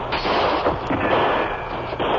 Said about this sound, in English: Shots come from every side of building.